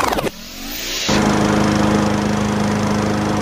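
Lawn mower engine catches after a few quick sputters, builds over about a second, then runs as a loud, steady, buzzing drone with no voices.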